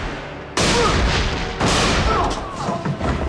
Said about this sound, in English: The dude misses. Nick returns fire, apparently a bullseye.